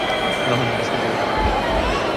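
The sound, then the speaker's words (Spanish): A football stadium crowd whistles at the goalkeeper after he concedes a second goal, jeering each time he touches the ball. A dense, steady roar carries thin sustained whistle tones throughout, with no clear break in loudness. “vaya pitada tremenda del público cuando ha agarrado el balón Luis Junior, ¿eh? Terrible, terrible. Pero la pitada que ha recibido, ya la ha recibido tras encajar el segundo gol, y cada vez que toca la pelota, cada vez que interviene, recibe los silbidos de los espectadores.”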